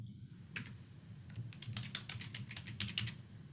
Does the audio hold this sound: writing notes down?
yes